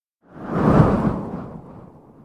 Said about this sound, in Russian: одним ударом тальвара снеся старику голову